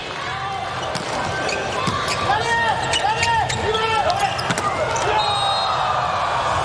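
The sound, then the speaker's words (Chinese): Ball strikes and sneaker squeaks on court during a volleyball match against Slovenia, with a few sharp hits and squeals over a steady crowd murmur. “卡尔的发球，”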